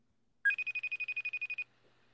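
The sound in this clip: An outgoing phone call rings on the line: one rapid, high-pitched electronic trill of about a dozen quick pulses, with quiet before and after.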